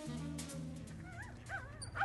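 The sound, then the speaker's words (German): A dog vocalizes excitedly in quick, high, wavering yips and whimpers with rising and falling pitch, quiet overall, over a low steady hum at the start. “Der Hund bellte erregt”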